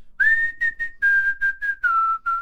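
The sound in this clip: Someone whistles a pop-song melody in short, clear, steady notes with brief gaps between phrases, and the tune settles lower toward the end.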